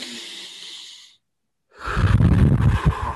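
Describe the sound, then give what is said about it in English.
A person draws a deep, hissing breath in, pauses in silence, then lets out a louder, rougher exhale. “let's all take a minute to just take a deep breath”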